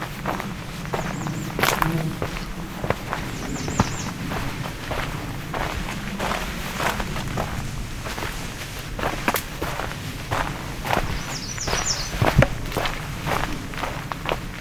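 Footsteps walk steadily along a trail in a nature preserve: many soft, even steps in a regular rhythm throughout, with brief high bird calls chirping now and then above them.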